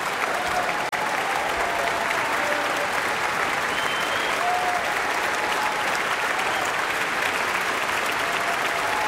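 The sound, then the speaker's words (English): Enthusiastic audience applause and a standing ovation for a pianist after a lyrical piano encore at an orchestral concert, following a Liszt piano concerto. Dense, steady clapping holds at an even level throughout, with no break. “Marc-André Hamelin taking another bow and receiving another standing ovation from the audience.”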